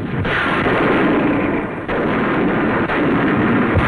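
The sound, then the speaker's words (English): Heavy naval bombardment from warships and rocket craft before the Incheon amphibious landing in the Korean War: a loud, continuous rumbling barrage of blasts and booms, with only a few brief dips in the din. “A bombardment from warships and rocket craft prepared the ground for Korea's D-Day.”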